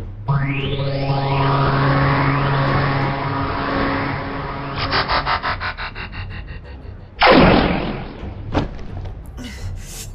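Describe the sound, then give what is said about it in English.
A gunshot strikes in a robot adventure drama as a sudden loud blast with a decaying tail, preceded by a sustained electronic whine and fluttering pulses and followed by a couple of short sharp hits. “I've been shot. But how? By whom?”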